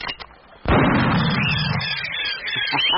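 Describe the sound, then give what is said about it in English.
A single gunshot fired at a large perching bird on an island: a sharp, loud blast that cuts in abruptly, then rings out into a long rumbling tail. “I do believe it is the first gun fired on this island since the creation of the world.”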